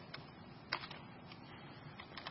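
Typing on a computer keyboard while a new text file is being named, heard as faint, irregular soft key clicks with a few sharper taps, no voices present.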